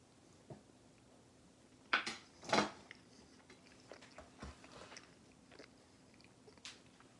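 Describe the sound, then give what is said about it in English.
Biting and chewing a three-meat pizza: a few loud, crisp bites close together, followed by softer, scattered chewing sounds over near silence, with no talk. “So this is the three meat. I think I've made my decision. Let me just taste it one more time.”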